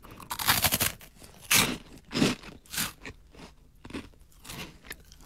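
Crisp crunching and chewing while someone eats a lightly flavoured Karl snack, with many sharp, irregular bites and crackles, the loudest in a dense cluster at the start and then spaced out.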